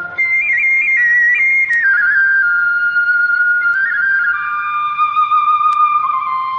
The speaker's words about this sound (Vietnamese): Vừa đến chân núi là cô nghe tiếng sáo véo von.